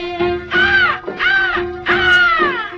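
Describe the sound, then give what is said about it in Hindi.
Crows cawing in three drawn-out, rough and harmonic calls, loud and nearly continuous, with a steady low tone running underneath. “देख तो हर कोई जोड़ी कौवे शोर मचाए, इन कौवे शोर मचाए।”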